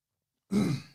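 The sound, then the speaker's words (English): A single choking cough: one short, breathy, rough burst that breaks out of silence, fairly loud, then tails off quickly. “My God, I'm choking.”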